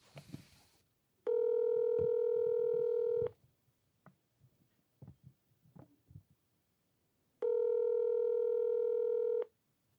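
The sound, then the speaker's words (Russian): Telephone line tones while a call is being placed: two long, steady, evenly pitched tones separated by a pause with faint clicks, after a brief burst of noise at the start. “Ладно, давайте позвоним.”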